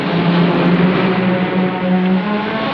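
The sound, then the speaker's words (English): A car driving along a tour route beside a vast quarry, its engine holding a steady, continuous drone with a low hum throughout, no talk over it. “The car tour continues”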